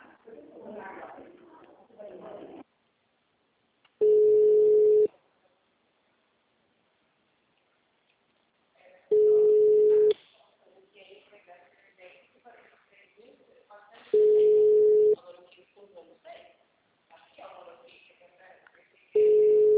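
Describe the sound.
Telephone busy signal on an occupied extension: a steady mid-pitched tone sounds in about one-second pulses, repeating four times at intervals of roughly five seconds. Quieter voices and sounds fill the gaps, and the last tone is cut off.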